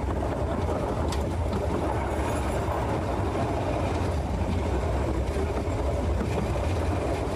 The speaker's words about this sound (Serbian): Drugujete sa zvukovima mašina, vozova. Da li vam je to umilna muzika kada čujete da prolazi voz?